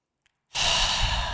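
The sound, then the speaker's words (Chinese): A deep breath is let out in one long, breathy sigh that begins after a moment of near silence and continues steadily to the end. “比如说，我们现在做一个深呼吸，在吐气的时候，感觉我们的全身。”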